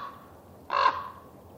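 A single harsh raven caw rings out over a battlefield, one short, loud, rasping call that stands alone above a faint, low background rumble.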